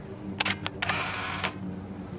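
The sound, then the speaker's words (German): A camera on a small camera robot taking a photo: several crisp mechanical shutter clicks with a brief whirring, rushing noise between them, then a final click before it fades to a low hiss. “406 druckt das Bild aus, das er gerade geschossen hat”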